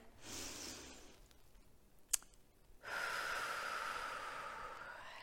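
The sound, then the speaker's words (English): A deep breath drawn in during a guided breathing and tapping exercise, followed by a long, steady exhale. The breathing is faint and soft, with a brief click between the two breaths. “And take a deep breath in.”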